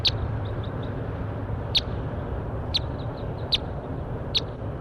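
Sharp, high bird calls: about five short clipped notes spaced irregularly, with fainter chirps between them, over a steady low rumbling background.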